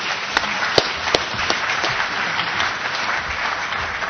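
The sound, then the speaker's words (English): A lecture audience applauds to welcome the speaker, a full, continuous wash of many hands clapping, with a few sharper individual claps standing out early on before the sound settles into an even patter. “So would you put your hands together just in acclamation to welcome John to the lecture.”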